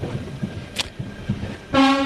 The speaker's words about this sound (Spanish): Me vas a perdonar, pero está pasando justo el tren ahora detrás nuestro.